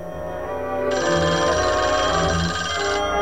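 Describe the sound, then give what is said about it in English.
A wall-mounted telephone rings with a continuous bright, high electronic trill lasting about two seconds over a steady background, then stops. “The phone rings on the wall.”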